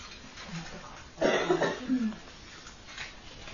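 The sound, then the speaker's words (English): A person with a scratchy throat from allergies coughs once, a rough, breathy burst with a brief throaty tail that stands out moderately over faint background noise. “I have a scratchy throat because I have allergies. So okay. I have cough”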